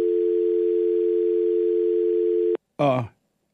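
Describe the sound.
Telephone dial tone after a call was cut off: a steady, even, single-pitched hum lasting about two and a half seconds. It stops abruptly and is followed by a brief burst of voice.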